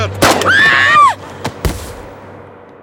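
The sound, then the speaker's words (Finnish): Sharp gunshot cracks in a tense film scene, a few in all, each a sudden loud bang, the last leaving a decaying tail that fades into quiet. “Tätä, se ampui sen. Se ampui Olhan isän. Se ampui sen.”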